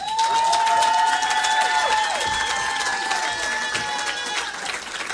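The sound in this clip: An audience applauds and cheers to welcome the singer Sonia before she performs a song from her new album. The clapping and crowd noise are loud and continuous, with some bright, sustained tones running through them.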